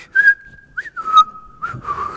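A person whistles a short, cheerful tune of a few clear notes, some held and some sliding, bright and fairly loud with nothing else behind it.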